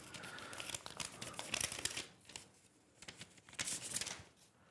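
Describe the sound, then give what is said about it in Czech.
A paper envelope is opened with faint crinkling and tearing, in two separate bouts of rustling with a quieter pause between them. “Máme tady tady tu obálku, já ji teď otevřu a přečtu ji.”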